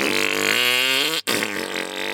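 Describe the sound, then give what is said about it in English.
A voice imitates a loud car exhaust that sounds like a wet, sputtering fart: a sustained buzzing, harmonic-rich blat that cuts out for an instant midway, then resumes at a slightly lower level. “if your car sounded like a diarrhea fart,”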